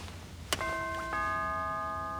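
A doorbell rings at a palace door: a short click followed by two chime tones that ring on and overlap, faint and heard alone.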